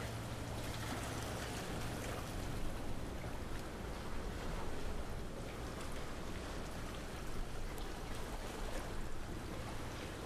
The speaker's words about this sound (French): L'eau s'y engouffre. Paysage sonore, étonnant.